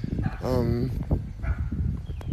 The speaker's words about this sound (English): I hear a dog. I hope the dog is behind the gate.